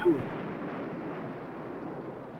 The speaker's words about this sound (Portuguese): É uma bomba, velho algum menino Peralta tá jogando bomba, né? No lago.